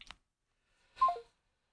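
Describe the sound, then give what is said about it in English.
Telephone tones as a caller hangs up at the end of a call: one brief, faint electronic chirp whose tones step downward in pitch, set apart after a short soft click. “that's the sound of Papa Hales getting off the phone”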